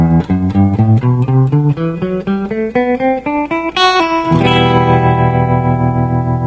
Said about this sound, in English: can improvise over this progression using the 2-octave E Aeolian pattern shown in example 3. It sounds like this.